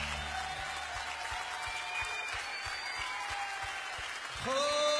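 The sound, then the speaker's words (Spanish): Applause from a church audience, a broad, fairly faint wash of clapping that holds steady under a low rhythmic thumping beat, with a brief rising tone near the end. “Aplaudale a él.”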